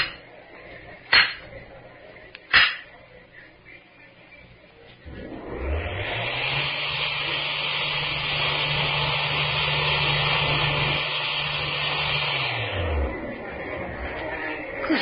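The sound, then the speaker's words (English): A mechanized wall in a mine, controlled by a photoelectric eye, swings open automatically. Two sharp clicks come first, then a steady motor-like hum swells up and drones for several seconds before winding down. “this whole section is wired and controlled by a photoelectric eye back there in the mine. Whenever we wanted to open the wall, all we had to do was bait the beam and it swung out automatically. Give the signal.”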